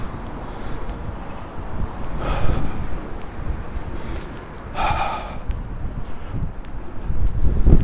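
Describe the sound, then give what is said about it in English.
Strong wind blows head-on against a microphone windscreen outdoors, a deep rumbling buffeting that swells in gusts and surges again at the end. “Okay, now there's a lot of wind. I just wonder if this windscreen can handle this, then it's pretty good. Right from the front.”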